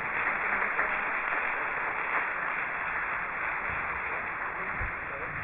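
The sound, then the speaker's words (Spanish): Audience applause for a group of young people during a Catholic church sermon, a steady, dense wash of many hands clapping that holds an even level from start to finish without easing off. “Démosle un aplauso a estos jóvenes.”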